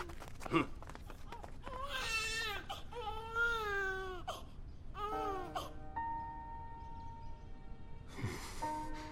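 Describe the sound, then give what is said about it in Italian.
An infant cries in several loud, wailing bursts with short gasps between them, the cries strained and rising at times, while someone tries to soothe the little one. “Non piangere, amore. Coraggio, piccolo mio.”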